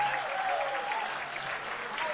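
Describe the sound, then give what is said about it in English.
Audience applause for a live band at a comedy show, a continuous, even patter of many hands clapping that holds a constant level throughout, moderately faint. “Isn't this band fantastic? Give them a round of applause, will you?”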